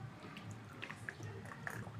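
Faint wet sipping and swallowing of coconut water, with a few small liquid clicks and squishes over about two seconds and no talk.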